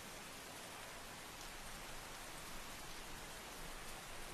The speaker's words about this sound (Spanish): Aquí también llueve. En el acantilado no dejaba de llover.